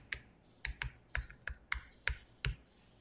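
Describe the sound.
Keys clatter as a web address is typed on a computer keyboard: about eight crisp, faint keystrokes fall in an uneven rhythm, with no voices.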